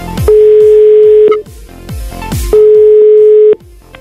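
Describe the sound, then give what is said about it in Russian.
A telephone call rings out as a radio host phones a caller, two steady mid-pitched tones of about a second each, separated by a pause, over background music. “Давайте позвоним одному из участников команды.”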